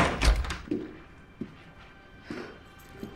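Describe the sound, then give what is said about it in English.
A door slams shut with one heavy, low thud at the start, followed by a few lighter knocks and taps at a quieter level. “slams the door as she leaves.”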